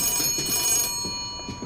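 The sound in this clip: A telephone rings with a bright, shrill electronic tone for about a second, then drops to a faint, lingering ring.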